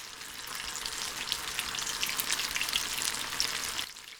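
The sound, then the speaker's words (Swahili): Tofu pieces fry in hot oil in a pan, cooked in batches, with a dense, steady, bright sizzle and crackle that holds evenly throughout, with no voices. “Rudia mchakato huu na ukaange vipande vingine vya tofu vilivyosalia.”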